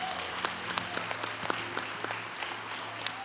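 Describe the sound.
A church audience applauding to celebrate a program: dense, steady clapping throughout, with a few sharper individual claps standing out.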